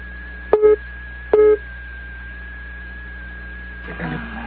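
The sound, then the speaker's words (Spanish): Busy tone on a phone line after a dropped call: two short, even beeps separated by a pause, over a low steady hum. “Se cayó la llamada.”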